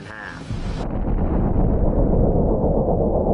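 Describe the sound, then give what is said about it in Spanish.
A torpedo explodes beneath a surface ship, hitting with a sharp, bright burst that gives way to a loud, sustained low rumble. The rumble keeps building and does not fade. “Más que golpear el costado del buque de superficie, correrá por debajo de él y explotará creando un gran vacío.”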